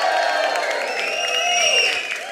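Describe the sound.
Crowd cheering and applause at a live music show as a singer welcomes his father on stage, a steady roar of voices and clapping with whoops sustained throughout.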